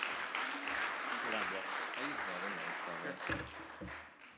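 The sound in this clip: Audience applause welcomes a newcomer to an outreach group who is about to give a testimony: dense, steady clapping holds throughout as voices talk over it.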